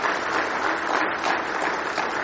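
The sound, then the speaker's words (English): A church audience applauds during a morning service to welcome a family. The clapping is a continuous, even, moderately loud patter, with no voices over it. “Give those folks a nice hand this morning.”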